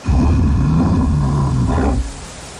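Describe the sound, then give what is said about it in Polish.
Deep roaring of bears in the Carpathian forest: a rough, rumbling growl that holds for about two seconds with a fairly loud, low, grainy texture, then drops away abruptly to a quieter rumble. “A to odgłos niedźwiedzi.”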